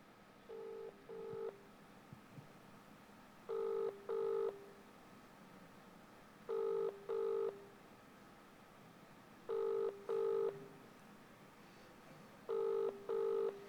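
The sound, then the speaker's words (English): Ringback tone of an outgoing telephone call: five double-pulse rings repeat at steady intervals of about three seconds. The tone is clear and even, with no voices. “And she hardly ever answers the phone when I phone her. But I wonder if she will this morning.”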